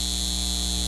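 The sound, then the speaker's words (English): A data center humming: a constant electrical drone of layered steady tones with a thin, high whine on top, unchanging throughout. “This is the sound of a data center taking your water and driving up your utility”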